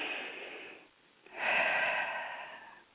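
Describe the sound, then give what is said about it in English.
Deep breaths drawn from the stomach come as two long, airy rushes of breath with a short pause between them; the second is louder and fuller. Nobody speaks. “make sure you take a deep breath. Make it come all the way from the stomach and deep.”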